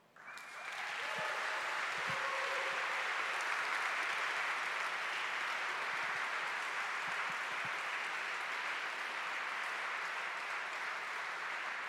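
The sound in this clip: An audience welcomes a speaker with applause that swells quickly in the first second, then holds as a dense, steady roar of many hands clapping.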